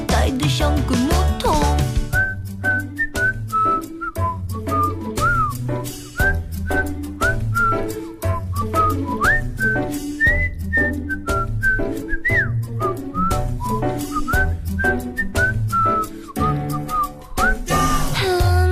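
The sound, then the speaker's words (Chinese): Whistling carries a melody over a pop song's instrumental backing, the bright tune rising and falling in short, repeated phrases, loud and steady throughout with no singing. “一段口哨”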